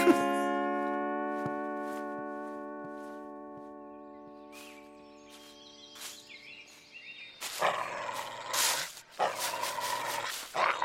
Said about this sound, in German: Bei Fuß, Waldemar, ein Jagdhund, der nicht hört, ich glaube es nicht.